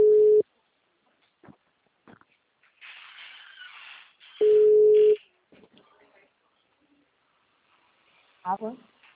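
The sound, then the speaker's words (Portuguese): A ringing tone plays on an outgoing telephone call: two long, steady beeps separated by a quiet gap, with faint rustling between them and a short voice near the end. “tá chamando”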